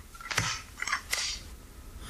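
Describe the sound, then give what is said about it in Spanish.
A stapler snaps three times in a crisp, sharp mechanical rhythm. Each clack is a short, bright burst, with the last two closer together. “¿Una engrapadora? ¿Una engrapadora? No, ¿verdad? No, pero. ¡Sí!”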